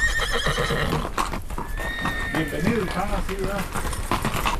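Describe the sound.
A horse whinnies in a rural mountain village in Mexico's Sierra Gorda, its neigh rising out of steady background noise alongside clip-clopping hooves.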